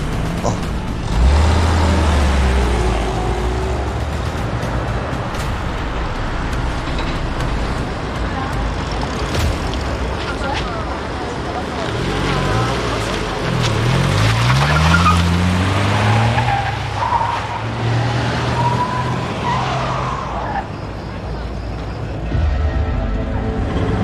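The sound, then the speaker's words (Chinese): A car driving fast in a chase, its engine roaring loudly and shifting in pitch as it accelerates, with tire noise and skidding mixed into the constant road rumble. “追踪那辆车。 开车。”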